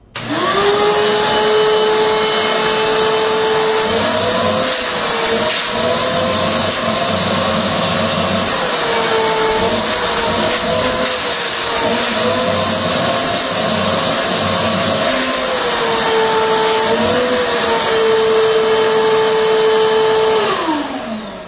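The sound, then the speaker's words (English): A wet/dry vacuum runs with its hose connected, giving a loud, steady roaring whine from start to finish. A sustained tone within it wavers slightly in pitch, and no voices are heard. “all right, hose is connected. Let's fire it up with the hose.”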